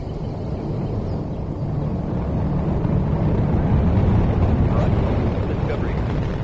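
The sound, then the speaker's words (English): A deep, steady roar from Space Shuttle Discovery lifting off with its three engines burning. It forms a loud, continuous rumble that swells slightly partway through. “Three engines up and burning. 3, 2, 1. and liftoff of Space Shuttle Discovery, beginning America's new journey to the Moon, Mars, and beyond. And the vehicle has cleared the tower.”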